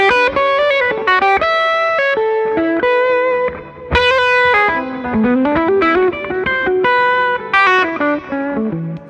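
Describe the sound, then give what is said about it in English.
An electric guitar played through a Chirality Audio effects pedal rings out a melodic line of many bright sustained notes, shaped by distortion and modulation, loud with no talking. “the pedal sounds really great. I just haven't had a chance to use it yet, and it's called... Chirality? Chirality Audio.”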